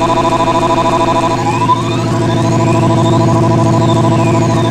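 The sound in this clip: A motorcycle engine revving loudly at a live party show, a dense sustained rumble with strong low harmonics and faint whining sweeps above, held steady throughout.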